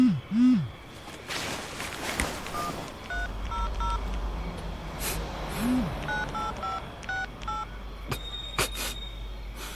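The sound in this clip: A mobile phone's text-message alert sounds as a series of short electronic beep tones in quick clusters. The beeps are fairly faint against a steady, noisy background.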